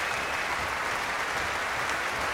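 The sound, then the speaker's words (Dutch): Orchestra members applauding a violin soloist loudly after a Shostakovich violin concerto performance at Tivoli-Vredenburg. The clapping is dense and continuous with a low rumble underneath. “Krijgt luid applaus van het orkest. Door gestam met de voeten.”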